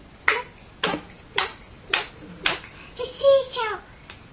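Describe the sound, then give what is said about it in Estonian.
Hands clap during a children's finger game: five sharp claps in a steady, even rhythm, followed by a brief voice. “Suured plaksud käivad.”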